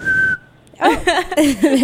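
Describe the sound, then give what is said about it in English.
A person whistles a single short, steady, mid-high note that tapers off, followed by a short pause and then people talking. “Well, I don't know how to whistle. I could whistle.”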